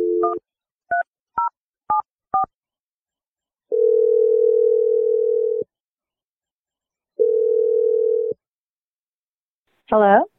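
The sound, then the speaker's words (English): Five short telephone keypad tones beep in quick succession, followed by two long, steady ringing tones separated by silence, and a brief voice comes in at the very end. “All right, here we go. I'm going to dial her number right now.”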